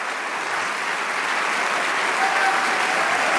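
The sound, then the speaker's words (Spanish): A church audience applauds during worship, a steady, dense wash of many hands clapping at once, loud and even from start to finish with no pauses. “Si ese aplauso es para el Señor, más fuerte.”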